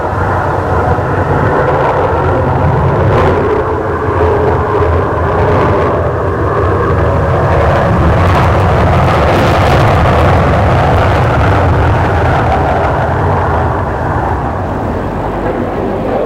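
Airplane rolling down a runway and taking off, a loud, dense engine roar that stays strong and steady for the whole stretch.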